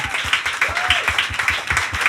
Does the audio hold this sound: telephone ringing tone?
no